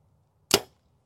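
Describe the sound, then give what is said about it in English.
An arrow tipped with a large fixed-blade broadhead, shot from a bow at 60 yards, makes one brief, sharp burst of sound in near silence. “Dude, 60 yards for that big of a fixed blade broadhead. It's not terribly loud.”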